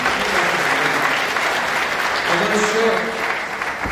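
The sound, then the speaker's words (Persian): A church audience applauds in praise of God, giving dense, loud, continuous applause that holds steady throughout. “یه دست دیگه برای این خدای عالی.”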